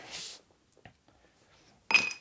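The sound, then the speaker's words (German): Candied nuts tipped into a glass jar, two short bursts of bright rattling clinks separated by a quiet stretch with a few tiny taps. “Ich hau das jetzt voll, das Glas, und dann... Die kandierten doch okay, super. Nüsse kleben am Deckel.”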